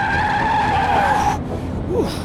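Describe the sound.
Tires squeal as a car skids around a big turn: a loud, sustained high whine that bends slightly downward for over a second, then a short rising chirp near the end.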